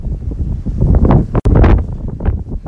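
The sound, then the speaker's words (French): Strong wind gust buffeting the microphone on a residential street near a pickup truck, a continuous loud roaring rush that surges and dips, with a brief drop partway through. “Je peux plus avancer. Je suis à peu près à 500 mètres de chez nous. Checkez-moi ça, la rafale.”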